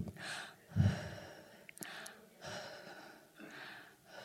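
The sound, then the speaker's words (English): Deep breathing during a pause in speech: a few slow, airy inhales and exhales, with one heavier, gasp-like breath near the start. No talking is heard. “And gonna breathe for a second.”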